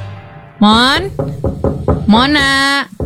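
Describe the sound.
Knocking on a door: a quick run of sharp raps set between two drawn-out, rising vocal calls.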